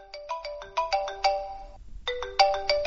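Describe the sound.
A telephone rings during a radio phone-in call to a listener from Kirkuk. The ringtone is a bright, rhythmic electronic melody in two bursts of rapid chiming notes with a short pause between them.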